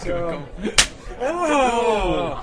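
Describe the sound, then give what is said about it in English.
A single sharp slap of a paddle against skin during an impromptu paddle-slap game. The crisp crack cuts in once between stretches of people talking. “So we're having an impromptu game of paddle slap at the moment.”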